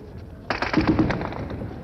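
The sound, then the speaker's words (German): A heavy exchange of gunfire in street fighting on Leipziger Straße during a workers' uprising, with Soviet tanks moving in. A low rumble gives way to a loud cluster of sharp cracks and rattling shots, then a steady noisy din. “beginnt soeben wieder ein heftiger Schusswechsel.”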